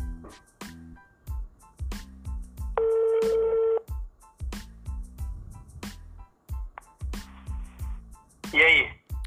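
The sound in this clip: A phone dials to redial a dropped call: a steady electronic tone lasting about a second and a shorter high beep sound among the bursts of people talking.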